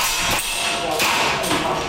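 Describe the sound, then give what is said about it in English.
Civilians fire air guns at targets in a Taipei basement: a few sharp pops spaced roughly half a second apart over a constant busy background. “In a Taipei basement, a dozen civilians fire air guns at targets.”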